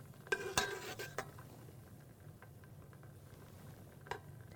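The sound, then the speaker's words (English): A spoon stirring pasta sauce in a pot as it boils and thickens. A few quick clinks and scrapes come near the start and one more tap near the end, over a faint, steady bubbling hiss. “And constantly stirring. Make sure it doesn't start sticking on the bottom.”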